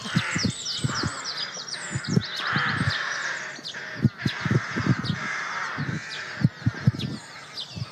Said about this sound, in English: That's the sound of a 500-pound microphone being ripped apart by blue tits.